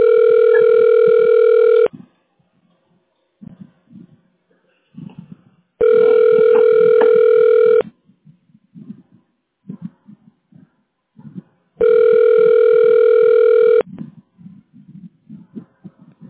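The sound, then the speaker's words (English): An office telephone line rings while a call is transferred to an extension. Three long, steady electronic ring tones, each about two seconds, are separated by longer pauses that hold faint low background sound. “Okay, that's going to be extension 217. Here you go. Thank you. Thank you. Your call is being transferred.”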